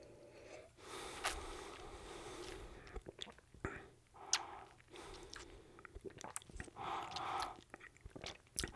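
A taster sips St. Elizabeth Allspice Dram, a spicy allspice liqueur, making faint wet mouth smacks and breathy sounds in several short bursts, with soft murmuring underneath.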